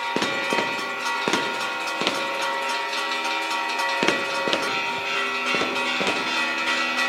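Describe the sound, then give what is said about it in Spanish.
A string of firework rockets (voladores) set off at a festival: many sharp bangs in quick, irregular succession, with steady ringing tones sounding behind them. “suena la traca de voladores.”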